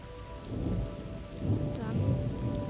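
A thunderstorm after lightning struck a fence: steady rain hisses throughout while low thunder rumbles beneath it, swelling louder midway and staying dense and continuous to the end.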